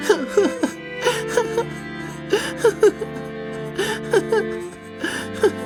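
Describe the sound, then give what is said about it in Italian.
A boy breaks into sobbing crying, a series of short gasping, whimpering vocal bursts that repeat in an uneven rhythm over a steady sustained background. “Perché stai piangendo?”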